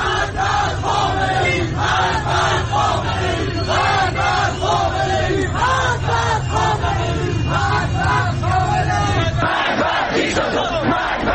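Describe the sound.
A crowd of protesters chants anti-government slogans in the streets of Iran. Many voices repeat a loud rhythmic call in regular bursts, with a brief dip in the chanting near the end.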